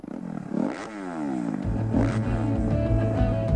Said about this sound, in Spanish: Vuelve la emoción de las dos ruedas a Talavera de la Reina. Campeonato de España de Motocross.